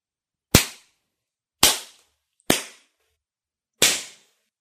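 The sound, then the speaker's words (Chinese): Four loud slaps of a hand striking one's own face hard, each a crisp, sharp crack that decays quickly into silence before the next one, spaced at slightly uneven intervals. “那么现在接受惩罚吧，狠狠地抽自己的嘴巴，没我允许，不准停，我要听声音，最响亮的声音。”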